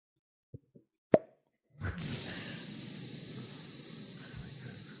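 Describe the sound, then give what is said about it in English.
A voice imitating a snake biting a bike tire: two faint clicks and a sharp pop, then a long, steady hiss that runs on to the end, like air rushing out. “I think the opening scene of Hiss will be a snake biting a bike tire. Okay. And that will make a sound a little...”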